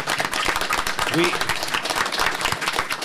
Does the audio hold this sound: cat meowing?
no

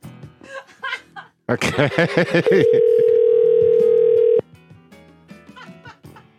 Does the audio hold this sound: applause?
no

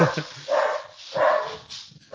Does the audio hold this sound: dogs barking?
yes

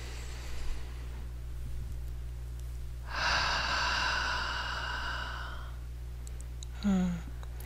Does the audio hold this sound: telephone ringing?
no

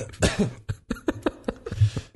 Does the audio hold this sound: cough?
yes

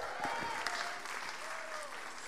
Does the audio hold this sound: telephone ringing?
no

